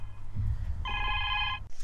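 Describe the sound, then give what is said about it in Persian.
A telephone rings once, a short burst of bright electronic trilling tone lasting under a second over a low background hum. “شما زنگ تلفن رو نمیشنوین؟”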